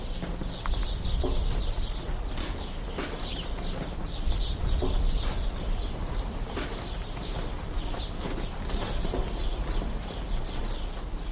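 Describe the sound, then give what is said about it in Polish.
Birds singing amid wind blowing through a deserted, war-damaged town in northern Iraq, near burned roof sheeting over a football pitch: repeated high chirps and twitters over a steady, broad rush of wind. “Jednak teraz jedynym dźwiękiem świadczącym o życiu w Karakosz są śpiewy ptaków i szum wiatru, choćby tu, wśród płacht spalonego dachu nad boiskiem piłkarskim.”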